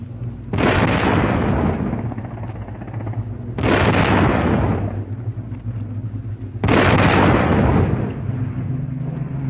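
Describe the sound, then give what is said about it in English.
Deck guns on ships fire at attacking aircraft in three long, loud roaring bursts of gunfire. Each barrage lasts about three seconds, with short gaps between them. “There go the guns, flashing on the decks below.”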